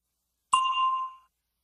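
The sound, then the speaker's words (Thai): A single bell ding is struck once, bright and clear with ringing overtones. It fades out within about a second, alone against silence. “เชิญรอฟังเสียงกระดิ่งแล้วเติมข้อความที่เหมาะสมใส่ทางท้ายของประโยค”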